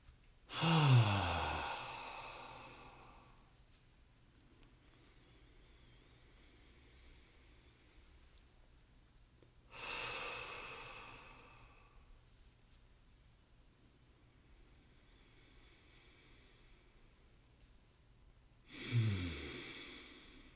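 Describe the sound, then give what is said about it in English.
Deep breathing during a guided exercise: three long sighing exhales, each swelling and tapering over a couple of seconds, spaced roughly nine seconds apart, with near silence between. “So, yeah, I'm gonna just invite you to breathe with me for about 30 seconds.”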